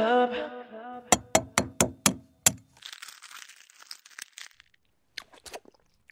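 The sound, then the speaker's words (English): Crunchy cracking of an egg being eaten: six loud, sharp cracks in a quick, steady rhythm, then softer crinkly crunching and a few scattered small clicks that fade toward the end. “Nothing tastes better than the 14th egg of the day.”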